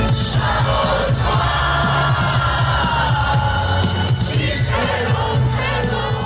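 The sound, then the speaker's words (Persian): Protesters sing together in the streets of Tbilisi as they face riot police, a dense, loud, continuous mass of voices with scattered shouts and cheers rising from the crowd. “تظاهر کنندگان مجدداً به خیابان‌های تفلیس آمدند و با پرچم گرجستان و اتحادیه اروپا در دست در مقابل نیروهای ضد شورش آواز می‌خواندند.”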